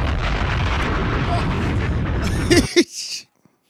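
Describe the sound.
A bomb explosion sound effect: a dense, loud roaring rumble sustained for over two seconds, breaking into a couple of sharp crackling bursts before cutting abruptly to silence.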